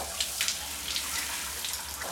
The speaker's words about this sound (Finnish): Hotellin suihkussa mä annan veden valua iholla